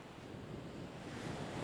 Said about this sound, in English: The ocean, man. The ocean. Getting sprayed with ocean spray now.